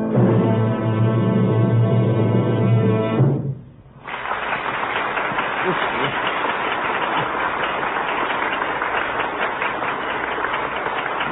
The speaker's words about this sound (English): Jumping on my feet now, try to. It's the greatest ovation he's ever had.